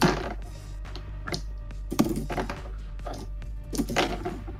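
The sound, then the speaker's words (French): Dice clatter on a table during a tabletop role-playing game: a few quiet bursts of short, hard clicks and rattles, with faint thunks between them. “Je vais jeter des dés avant.”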